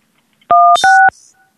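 Telephone keypad tones sound as a phone number is entered: two loud, steady, quarter-second beeps, one right after the other, with near silence around them.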